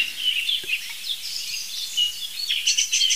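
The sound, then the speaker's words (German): A song thrush sings bright, varied high phrases while a blackbird sings behind it at a lower pitch; the calls come in quick bursts that grow busier toward the end. “Boah, jetzt Singdrossel. Und Amsel. Das ist alles Singdrossel, dahinter ist die Amsel. Das ist tiefer als die Singdrossel.”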